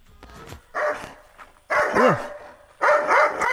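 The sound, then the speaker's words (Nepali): A large Bhote dog barks in three loud, rough bursts separated by short pauses, with no other sounds. “यत्रो मानको भोटे त्यो जुम्लातिरको जस्तो कराउँदो रहेछ. त्यो त मेरो बडीगार्ड हो नि.”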